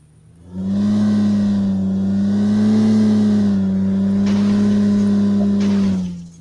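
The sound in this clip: A car engine in a racing video game drones at a nearly steady, low pitch, a loud sustained hum that holds for about five seconds before cutting off.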